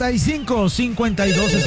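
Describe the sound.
A telephone rings with a loud, steady warbling tone that repeats in quick, even cycles throughout, with no pause between rings.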